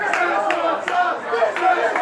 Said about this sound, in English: It's chaos at a McDonald's over, of all things, Szechuan sauce.